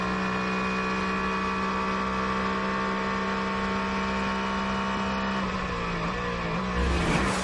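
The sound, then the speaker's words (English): A GT race car's engine drones steadily as it passes a BMW during a racing competition. The engine tone is sustained and loud, swelling briefly near the end. “It's the Procon competition for GT going past the BMW.”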